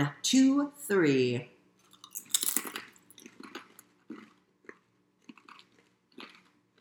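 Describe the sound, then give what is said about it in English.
Crunching of raspberry-flavored potato chips being bitten and chewed: many sharp, crisp crackles in an irregular run, loud at first and then sparser and fainter, after a short burst of voices at the start. “And we're going to eat these raspberry-flavored potato chips and see how they taste.”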